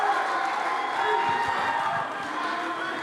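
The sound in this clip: An arena crowd in Houston cheers and applauds as a UFC heavyweight contender is introduced, a dense, steady roar that holds throughout and eases slightly in the last second.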